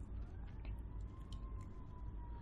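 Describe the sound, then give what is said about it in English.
Sirens wail faintly and steadily under a broad, low background rumble, with no voices over them. “And I apologize for the sirens in the background.”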